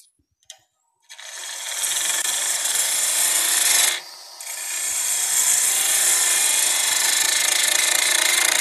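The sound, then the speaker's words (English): A bowl gouge cuts wood on a running lathe during woodturning, giving a steady, loud rasping hiss that stops briefly partway through and then resumes, after a faint click at the start. “Once I've got the top part of it done, I'm going to maybe do a little shaping on the other end, again with the bowl gouge.”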